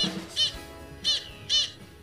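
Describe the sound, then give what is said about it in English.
Three short, nasal, barking calls of a black skimmer, or storm gull, a black-and-white Atlantic-coast seabird, spaced at an uneven rhythm and fairly loud against quiet background. “This is the call of a black skimmer. Also called the storm gull”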